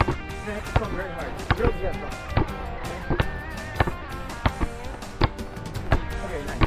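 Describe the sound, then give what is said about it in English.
Basketball dribbled: many steady, punchy bounces in a regular rhythm, with people talking over them. “Now watch me dribble him.”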